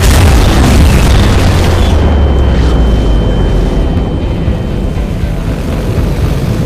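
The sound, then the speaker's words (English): Volley from the two front batteries of 18-inch naval guns on a warship, swung to starboard and firing: a loud, dense, sustained booming roar with deep rumble throughout, with no separate shots standing out. “The two front batteries of 18-inch guns swing to starboard and blast their deafening volley.”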